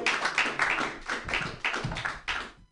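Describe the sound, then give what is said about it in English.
Comedy club audience applauding as a comedian is introduced: a thin, uneven patter of clapping from what sounds like a small crowd, coming in short bursts that fade out over a few seconds. “Put your hands together, everyone, for Kyle Morrissey.”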